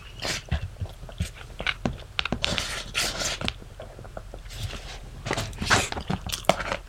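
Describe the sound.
Close, crunchy chewing of food, with many irregular bites, wet smacks and crackles spread across several seconds and no talk over them.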